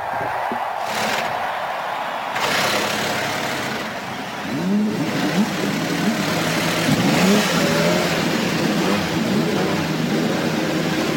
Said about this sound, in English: Ladies and gentlemen, start your engines.